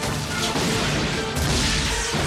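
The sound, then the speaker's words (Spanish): Cannons firing in a battle, with soldiers shooting toward mountains: a loud, dense roar of overlapping crashes and booms that stays steady throughout without clear gaps between shots. “Cuando Li Shan vio a sus soldados en orden, les hizo apuntar con sus cañones hacia las montañas desde donde los unos les lanzaban sus flechas y les ordenó disparar. ¡Fuego!”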